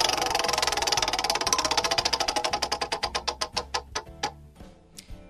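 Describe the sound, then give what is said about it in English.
Prize wheel spinning: a rapid stream of loud ticks that gradually spaces out and slows as the wheel loses speed, ending in a few last sparse clicks over a faint low hum. “Let's quickly spin the wheel.”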